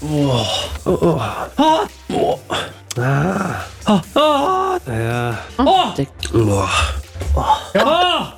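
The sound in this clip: A man groaning and gasping while watching a football match at a public viewing, many short strained vocal bursts with swooping pitch, separated by brief pauses.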